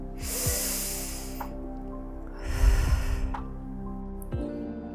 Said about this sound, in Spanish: Vuelve a respirar muy profundamente antes de la próxima ronda, inhalando por la nariz y exhalando por la boca.